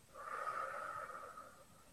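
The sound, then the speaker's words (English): A single slow, deep breath during a guided relaxation breathing exercise, soft and airy with a faint whistling tone, heard alone and fading at the end. “And one more deep breath in and exhale.”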